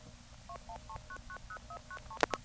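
A telephone exchange outpulses trunk dialing codes as multifrequency signalling, a faint, quick series of short two-tone beeps at a steady pace, followed by two brief louder bursts at the end.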